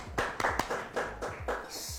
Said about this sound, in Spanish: Un aplauso para él.